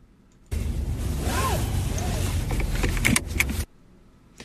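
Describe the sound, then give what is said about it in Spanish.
A car seatbelt is pulled out and fastened: a long, steady rustling slide of webbing, then a few sharp metallic clicks as it latches, followed by silence. “El cinturón del carro,”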